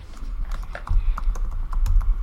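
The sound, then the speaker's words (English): Typing on a computer keyboard to enter notes: a run of irregular, sharp clicky taps over a low rumble. “Nope, I'm just typing it in. Oh, you're typing it in the notes.”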